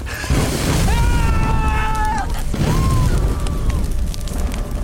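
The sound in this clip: Fire blazes up and engulfs a person, a loud, continuous, rumbling roar with a high, wavering tone sounding over it twice.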